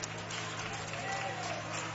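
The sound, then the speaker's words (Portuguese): Church audience applauding as a singer is welcomed, a faint, steady patter of clapping with a low hum underneath. “recebamos o servo do Senhor com palmas, mais alegres”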